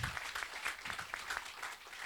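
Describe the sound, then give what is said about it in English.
Audience applause: many hands clapping in a steady, dense wash at moderate loudness, holding evenly for about two seconds with no voices over it. “We can clap for that. We can clap for that.”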